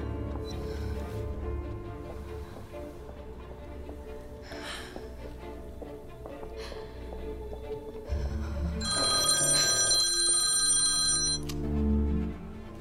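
A telephone in a home rings in a short burst of bright, high-pitched bell tones near the end, after a stretch of low, steady background drone.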